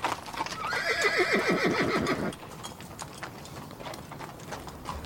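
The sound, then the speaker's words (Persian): A horse whinnies loudly in a falling, shaky call lasting about two seconds as its rider dismounts, followed by quieter, scattered hoof clops and rustling. “از اسب میاد پایین”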